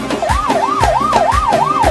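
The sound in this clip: An ambulance-style siren wail at a wedding celebration. It sweeps quickly up and down in pitch again and again over a few steady low thumping beats, loud throughout.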